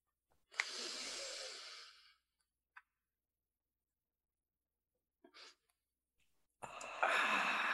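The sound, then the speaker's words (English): A group breathing together during a gathering where members draw goddess cards from their decks: a long, airy breath, then quiet broken by a few faint, brief sounds, and another long, loud breath at the end. No one talks. “Let's breathe.”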